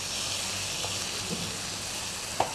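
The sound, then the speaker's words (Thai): Sizzling of shrimp being stir-fried with roasted chili paste in a pan, a steady, fairly faint frying hiss with a couple of light clicks near the end, with no talking. “ผัดให้น้ำพริกเผาเข้ากันกับกุ้ง”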